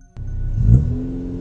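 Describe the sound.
A car engine starts with a sudden catch, then swells into a loud, low rumbling rev that peaks briefly and settles into a steady, humming drone.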